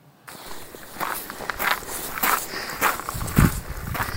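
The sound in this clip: Footsteps of a person walking outdoors past a church on Omø, a steady series of soft crunching steps at an even walking pace over a constant background hiss, with no talking.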